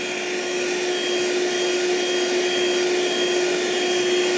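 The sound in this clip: An electric blending machine, rated to process about 10 kilograms, runs with a loud, constant whirring drone. A steady high motor whine sits on top, and no voices are heard.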